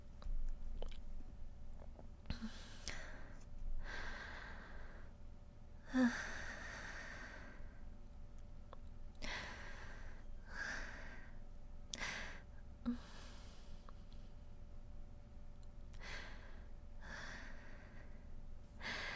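Heavy, uneven breathing of someone catching their breath, many quick airy breaths and soft puffs at a low level with no talk.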